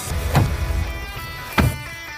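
Someone gets into a car: two dull door thumps, one early and one later, stand out over a steady low rumble.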